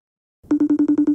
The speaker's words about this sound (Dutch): Dus we gaan hem nu bellen en dan gaan we het zien.